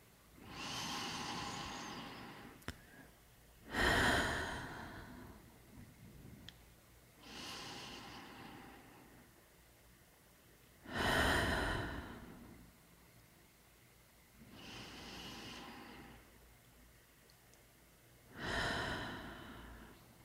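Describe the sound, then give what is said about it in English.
Three slow, deep guided breaths, heard alone. Each is a soft, airy inhale followed by a louder, fuller exhale, with long, even pauses between them. “as we start to shift back to the room, I invite you to take 3 breaths. And we'll do this together.”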